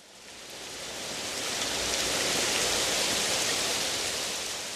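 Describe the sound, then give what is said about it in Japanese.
Steady rain falling during the rainy season, a dense, even hiss that swells slightly at first and then holds at a constant level, with no voices. “梅雨が始まりましたよ。 そうですね。最悪です。毎日雨が降ります。”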